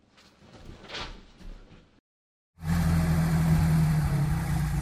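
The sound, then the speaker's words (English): A DeLorean car drives off. After a quiet stretch and a brief silence, a loud, steady engine drone sets in and holds at an even level to the end. “I'm going to take the DeLorean for a quick spin. Don't worry. I'll only just go over 88 miles per hour.”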